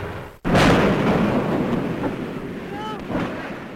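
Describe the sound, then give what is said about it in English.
An archival recording of a hydrogen-filled airship crashing and burning. It opens with a sudden loud burst, followed by a sustained, rumbling roar that slowly eases but stays heavy to the end. “The actual crash of the Hindenburg, an airship destroyed in less than half a minute.”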